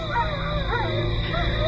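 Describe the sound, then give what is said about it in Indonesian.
Dog howling and whimpering at night in a backyard near a guava tree: wavering high-pitched cries run continuously throughout over a steady low hum. “Suara burung hantu dan lolongan anjing”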